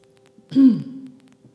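A single throat-clearing cough bursts out from someone whose asthma is acting up. It is one short, rough outburst that trails off, with no talk around it.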